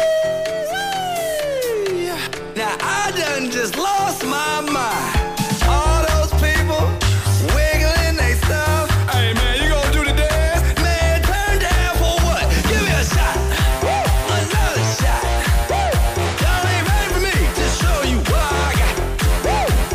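An upbeat electronic dance-pop song plays. A sung, melodic opening gives way after about five seconds to a steady, thumping beat with heavy bass.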